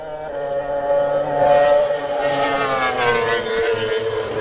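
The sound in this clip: Racing motorcycles arrive at the Isle of Man TT Grandstand on Glencrutchery Road, a loud, sustained, high-revving engine whine whose pitch climbs as the bikes draw in.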